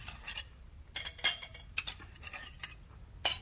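Faint clinks and scrapes of a spoon against dishes as millet porridge is served into bowls, with a few irregular taps and light stirring noises.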